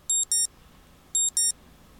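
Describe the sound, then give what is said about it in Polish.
Shrill piezo alarm tone from a BlindShell Classic phone: two pairs of short, high-pitched electronic beeps separated by a brief pause, over a quiet background. “Piezo alarm wybrane.”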